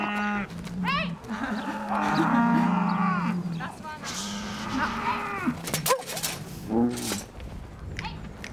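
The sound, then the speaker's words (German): Dairy cows and heifers moo on a pasture: several loud, overlapping lowing calls with long, drawn-out tones that fill the whole stretch. “Und dann stehen da noch die anderen Milchkühe auf der Weide nebenan. Die sehen sie jetzt zum ersten Mal und freuen sich anscheinend.”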